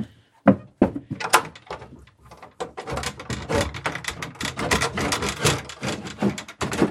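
An attic door being opened in a house, with a run of wooden knocks, thunks and scraping clatters. A few sharp separate thumps come early, then denser rattling movement continues throughout.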